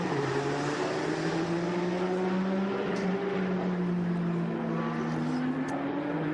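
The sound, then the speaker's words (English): A Porsche race car engine drones as the car works its way through traffic during a race. The note is steady and continuous, with a slightly wavering pitch, and no voices are heard. “It's Oleksiy Kirishenko in the double eight up to race Porsche, trying to get through some traffic.”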